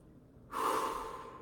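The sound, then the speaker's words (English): One deep breath drawn in after a moment of silence: a sudden, loud, airy rush that holds and then eases off gradually, with no voice. “And you're going to take a deep breath.”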